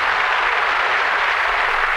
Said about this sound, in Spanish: Los caficultores que con tanta dedicación y esfuerzo cultivan el café, reciban un aplauso de toda Colombia.